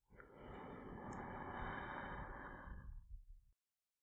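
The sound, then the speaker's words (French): A deep, slow inhale during a hypnosis relaxation breathing exercise: a soft, airy rush of breath that swells and holds for about three seconds, then stops abruptly into silence. “une dernière fois. Inspirez.”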